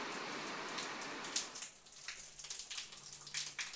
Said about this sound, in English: Rather ironically, this is the sound of the shower in the morning, just a very small trickle after that downpour last night.